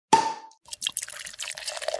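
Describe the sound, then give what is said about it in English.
A bottle is popped open with one sharp, sudden pop, followed by a soft, sustained fizzing hiss. “All right, let's pop open that bottle.”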